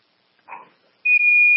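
An alarm sounds on location at an emergency call: a brief faint noise, then a steady, piercing high electronic tone that cuts out once for an instant and carries on to the end.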